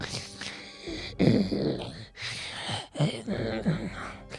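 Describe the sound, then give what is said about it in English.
A voice imitates heavy breathing with a few rough, breathy pulses of noisy exhalation and inhalation, separated by short pauses. “I listen really hard to see if I can hear any footsteps or movement. You hear a heavy breathing, kind of sounds like this.”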